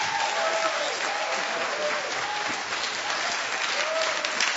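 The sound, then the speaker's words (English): An audience applauds a speaker's entrance with dense, steady clapping that stays loud and even from start to finish, with no pauses or swells. “So why don't we give Robert a great hand and welcome as he comes.”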